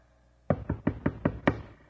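Six quick, evenly spaced knocks on a door, sharp and hollow, follow each other in a brisk steady rhythm after a moment of quiet.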